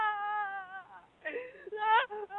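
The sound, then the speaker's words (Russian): Woman crying on a phone call: a quiet, tremulous wailing and whimpering voice whose pitch wavers, breaks off briefly, then resumes in higher, rising sobs. “И плачет.”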